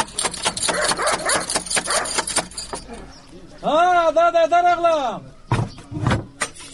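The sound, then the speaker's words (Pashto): Knocking on a door while a dog is nearby: many quick, sharp raps over about three seconds, then a drawn-out voiced sound and a couple of further thumps, with people talking. “ته ودرېږه چې دا دروازه بیا ور وټکوم.”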